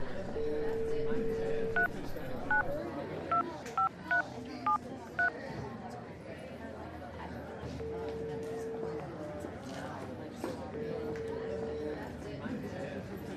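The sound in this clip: A telephone number is dialed on a phone: a steady dial tone, then a quick series of short keypad beeps, then long ringing tones spaced apart, all over a low, constant background noise.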